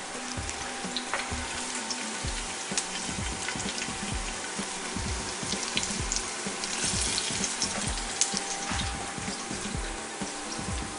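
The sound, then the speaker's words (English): Pieces of food fry and brown in oil in a pan on a powerful stove, a continuous crackling sizzle dotted with many small pops and spits, with no talking. “So I want them to cook for a minute and brown on each side.”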